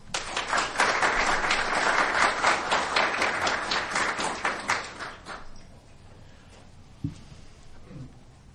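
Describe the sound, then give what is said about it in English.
An audience applauds to welcome a speaker, dense, loud clapping for about five seconds that then thins and dies away, leaving a quiet room with a couple of soft thumps. “Please join me in welcoming Ambassador Szapary.”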